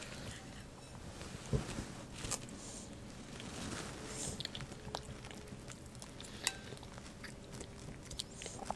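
Someone chews food with quiet, irregular crunching and soft smacking bites. The sound is steady and faint, broken by a few sharper clicks.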